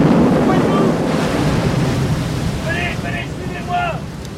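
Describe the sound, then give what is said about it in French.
An ocean wave crashes over a sinking ship during a squall, after its rudder has been torn away: a loud rush of water at the start fades into sustained wind and sea roar. Shouting voices break through toward the end. “Le capitaine vient d'être emporté par une vague. Le navire va couler.”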